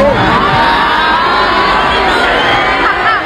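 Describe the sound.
A concert audience shouts and whoops in response to a mocking remark about Mexico's eliminated team. The roar of cheering and jeering voices is loud and continuous throughout.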